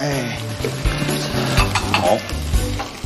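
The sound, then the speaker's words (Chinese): Loud sizzle of pork stir-frying in a wok as starch slurry is poured in, a continuous frying hiss with rhythmic scraping and stirring throughout. “然后我们把碗芡撒在我们的过油肉里头。”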